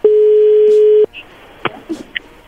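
A phone call cutting off with a disconnection tone: one long, steady mid-pitched beep lasting about a second, loud and alone, followed by faint line noise and a few brief clicks.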